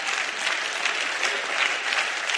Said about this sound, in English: that deserves a hand clap.